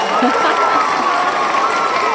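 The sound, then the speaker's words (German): Steady applause with a continuous, dense wash of clapping, fairly loud and even from start to finish without pauses. “Ich dachte, ein bisschen Applaus braucht es nochmal.”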